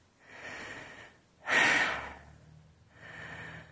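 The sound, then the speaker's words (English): Heavy breathing of someone catching their breath: three breaths, a moderate exhale, then a louder rasping gasp, then a softer breath. “Oh, God, I need to catch my breath. That was fun.”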